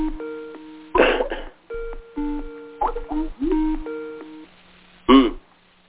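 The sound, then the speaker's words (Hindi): A phone ringing with an incoming call from India during a conference call, a short electronic melody of steady tones repeating a few times, interrupted by bursts of voices. “ओहो किसी दूसरे का अभी हो रहा है और India से फोन आ रहा समझ गया।”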